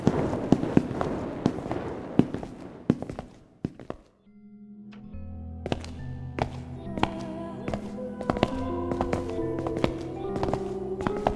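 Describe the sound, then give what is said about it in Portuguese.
Footsteps descend stairs and echo in a hall as many hard, irregular thuds. They fade briefly, then continue over sustained low musical tones. “Vocês escutam os passos da Lírio descendo. Eles começam a ecoar no hall de descida.”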